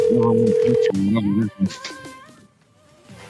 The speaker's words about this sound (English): Wow, what a prick. I wanted to talk to Doggy Doggy. Does he just not pick up the phone at night now?